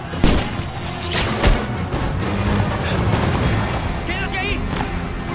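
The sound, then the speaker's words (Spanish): A loud explosion in a battle scene on a beach with horses and archers, hitting at the start over a dense, continuous roar of combat noise that carries through the whole clip. “Una explosión tira a Antíope del caballo.”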